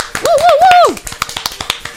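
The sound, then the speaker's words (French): Sparse applause for the musical duo In The Can: a voice sounds briefly, then a string of sharp, separate claps follows at a fairly steady pace. “Oui, donc on va peut-être faire un peu plus d'efforts pour les applaudir. On va les applaudir tous les trois, les In The Can.”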